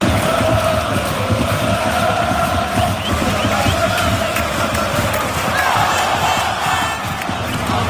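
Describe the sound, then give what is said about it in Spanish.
A loud, continuous roar from a football crowd at the Nou Sardenya, CE Europa's stadium in the Gràcia district of Barcelona, half an hour before kickoff. Massed voices cheer and chant without letup. “Media hora antes de que saltaran los equipos ya había mucho ruido en el Nou Sardenya, que es el estadio del Europa, en el corazón del barrio de Gracia, en Barcelona.”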